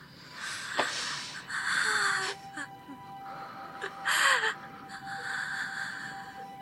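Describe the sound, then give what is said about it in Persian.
Heavy breathing from a person being coached to breathe: a few breathy, rasping bursts of inhaling and exhaling separated by short pauses, over a faint steady background tone. “با من، نفس بکش، فقط نفس، نفس بکش، نفس بکش.”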